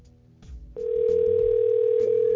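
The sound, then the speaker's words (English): A steady telephone line tone sounds as a call is placed: a single sustained mid-pitched beep that cuts in after a brief low rumble and holds unbroken and loud to the end. “then we'll give her a call and we'll see if she'll answer”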